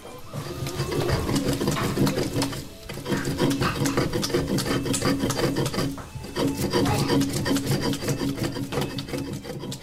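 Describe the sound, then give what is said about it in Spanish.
Cooked tomatoes, red chiles and garlic are ground on a stone metate with continuous rhythmic rasping, stone scraping on stone in long runs broken by two brief pauses. “Ma, ya molí los chiles rojos, el ajo y los jitomates cocidos. Todo lo molí en el metate.”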